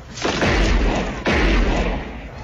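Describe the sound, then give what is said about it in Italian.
Gunshots in a spy-thriller film scene set in an alley, where a man is shot in the throat: two loud, heavy booming blasts about a second apart, each trailing into a long rumble. “Sarà proprio il vice direttore della CIA che ucciderà l'amico del Condor, Sam, con un colpo secco sparato alla gola.”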